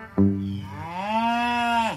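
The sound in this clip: A cow gives one long, loud moo that starts low, swells upward in pitch and holds there, then drops sharply at the end. It stands alone without other sounds.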